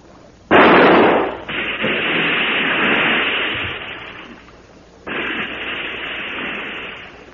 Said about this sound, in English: Yes, it's seen us. Well, I'll have to shoot. Keep the light steady.